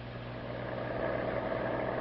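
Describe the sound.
A car engine runs steadily while driving home from a dance at night, giving a low, even droning hum with no breaks and no voices.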